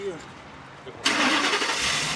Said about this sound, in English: gets behind the wheel of the U-Haul.